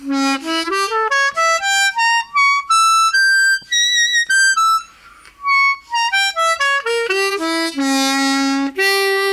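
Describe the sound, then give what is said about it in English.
A C-sharp diminished arpeggio played on a diatonic harmonica in a jazz-blues style: bright, clear reed notes climb in quick steps to a high register, then run back down, played loud and alone. “And then C sharp diminished is also really used in a jazz blues. Sounds like this.”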